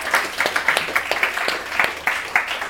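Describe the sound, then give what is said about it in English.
A crowd claps in a round of applause at a live show, with many overlapping hand claps forming a lively, uneven patter at moderate loudness. “And then crowd, give yourselves a round of applause for that outstanding Foley work.”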